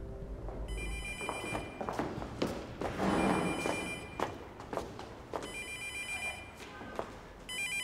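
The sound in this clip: An electronic telephone ring sounds in a few repeated trilling bursts, bright and high-pitched. Soft thumps and knocks fill the gaps between the rings.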